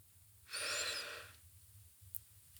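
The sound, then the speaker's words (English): A single deep inhalation drawn in from the belly during a guided breathing exercise. It is a soft, airy rush lasting just under a second, quiet over a faint low hum. “Deep breath in. Exhale fully. Deep breath in from your belly.”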